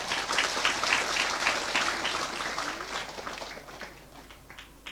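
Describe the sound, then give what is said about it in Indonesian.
Audience applause greets an Islamic teacher, an ustaz, as a thick patter of clapping that starts full and gradually thins and fades toward the end. “Aplaus dulu dong buat Ustaz Felix.”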